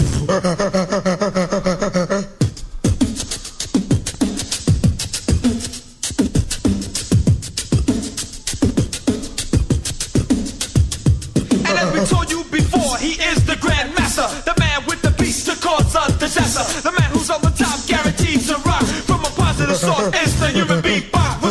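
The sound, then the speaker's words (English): A performer beatboxes, opening with a short sustained hummed tone, then launching into a loud, rapid, steady stream of vocal kicks, snares and hisses that runs unbroken to the end. “So check it out, party people, it's the human beatbox.”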